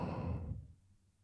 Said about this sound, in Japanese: とっても気持ちいい。吸って吐いて